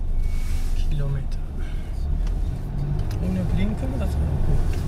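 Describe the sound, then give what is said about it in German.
A minibus on a local on-demand ride service pulls away, its engine rumbling steadily and low throughout, with people talking over the vehicle noise. “Kaum hat Krämer den Fahrer des Kleinbusses begrüßt, kommt auch schon der nächste Fahrtwunsch herein. Resi fährt los.”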